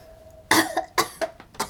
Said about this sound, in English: They cough and wipe their eyes away as the green apple fills the room and their lungs.